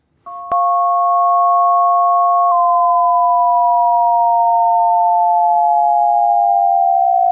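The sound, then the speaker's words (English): Two loud pure sine tones play together after a click at the onset; the higher one holds, then glides slowly down toward the steady lower one, a pairing meant to evoke a faint rising combination tone. “Now, the exact same two things played simultaneously. Listen for this rising tone.”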